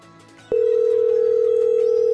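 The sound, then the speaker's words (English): A telephone call tone sounds before the call reaches voicemail. After a brief quiet moment, a single steady tone starts abruptly and holds unbroken at an even pitch and loudness. “He's cleared his voicemail. Hold on. We'll leave him a message or...”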